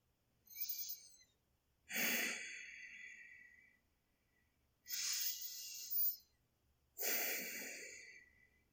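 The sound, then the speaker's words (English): Deep breaths, heard as four long, breathy rushes of air separated by quiet pauses, with no talking. “Now, take a deep breath for me.”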